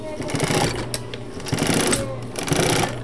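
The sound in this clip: A sewing machine stitches shoes in a factory, giving a steady, rapid mechanical chatter with a dense, rhythmic pulse that runs for the whole clip.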